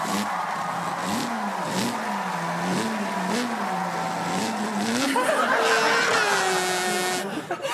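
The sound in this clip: A voice imitates a Holden race car engine at the Bathurst 1000 with a steady buzzing drone that wavers up and down in pitch. Near the end it jumps to a higher, strained whine.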